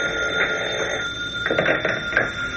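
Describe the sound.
A hotel telephone rings with a steady electronic tone that holds throughout, moderately loud and without voices, with a few faint bursts of noise beneath it.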